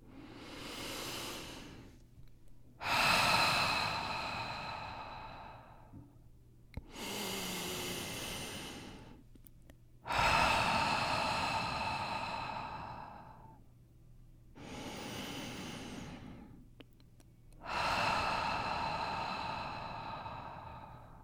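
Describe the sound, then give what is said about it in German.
Three deep breaths taken during a guided relaxation exercise: six airy, hissing breath sounds, slow and loud, that form three drawn-out inhale and exhale pairs separated by brief pauses. “Komm zur Ruhe und nimm 3 tiefe Atemzüge.”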